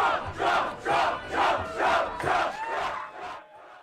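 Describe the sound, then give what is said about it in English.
A large crowd roars and cheers a rousing welcome for Donald Trump at the Iowa–Iowa State football game in Ames, Iowa. The cheering comes in loud, chant-like rhythmic surges that taper off at the end. “Former President Donald Trump got a rousing welcome in Ames, Iowa, where he attended the Iowa-Iowa State football game.”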